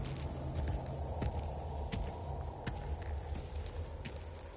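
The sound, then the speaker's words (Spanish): Footsteps of Azog, an orc, walking across a stone walkway cut in half between two blocks of a fortress: a few faint, heavy steps sounding over a low, steady rumbling drone. “Azog camina sobre una pasarela de piedra cortada en su mitad, situada entre dos bloques de la fortaleza.”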